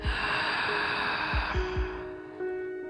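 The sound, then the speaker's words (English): A deep breath drawn in through a wide-open mouth, a long airy breathy inhale held steadily for about three seconds against soft sustained tones. “open your mouth as wide as you feel comfortable and take a nice big full breath in through the mouth”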